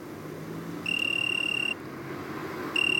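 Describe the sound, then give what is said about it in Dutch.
A tree cricket trills from under a mullein plant beside a sea-lock road in Scheveningen, giving two long, steady, high-pitched trills separated by a pause over a faint background hiss. “Het is een boomkrekel.”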